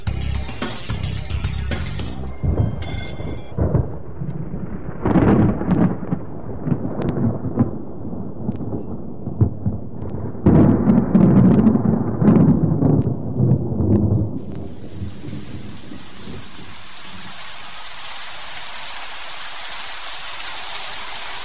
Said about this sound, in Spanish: Y eso me recuerda que pronto va a llover.